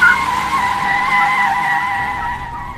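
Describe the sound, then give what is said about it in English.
Tyres squeal and skid as a car speeds off in a getaway, a loud, sustained high screech that holds steady and eases slightly toward the end. “He's in! Step on it, Mac!”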